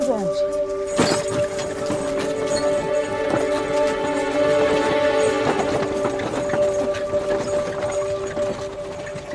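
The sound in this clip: Hooves of a horse-drawn carriage clip-clop in a loose, repeated rhythm against a sustained droning tone, moderately loud throughout.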